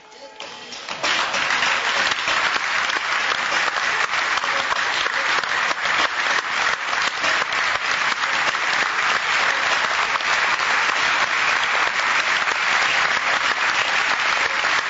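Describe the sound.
An audience applauds after a theatre show by a group of women. The clapping swells within the first second into dense, steady applause that stays loud and even to the end.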